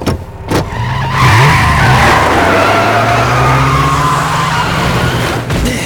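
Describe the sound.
Tyres screech as a car skids under rough driving, a sustained squeal lasting several seconds over a low engine drone, then cutting off near the end.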